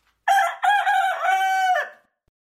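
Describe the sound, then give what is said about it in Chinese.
A farm rooster crows at dawn with one loud, drawn-out, strongly tonal call lasting nearly two seconds. It breaks in short steps at the start and trails off at the end, heard alone against silence. “发出了清晨的第一声鸣叫。大公鸡一边打鸣，一边拍打着翅膀。”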